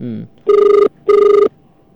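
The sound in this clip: A telephone rings in two bursts, each a loud, buzzy, rapidly warbling electronic tone lasting under half a second, separated by a short gap. A voice is heard briefly just before the first ring.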